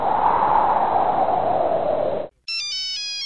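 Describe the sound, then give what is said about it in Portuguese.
A phone ringtone for an incoming call: a bright, high electronic melody of quick stepping tones, less than a second long. It begins just after a loud, steady rush of noise cuts out. “Tá recebendo uma ligação, cara.”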